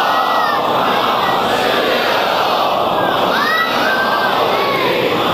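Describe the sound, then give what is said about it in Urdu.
A large gathering reciting a salawat aloud in unison, a loud, dense swell of many voices sustained throughout, with a few higher voices rising briefly above the mass. “ایک بار ان جوانوں کی حوصلہ افزائی کے لیے بلند آواز سے ایک صلوات بھیج دیجئے”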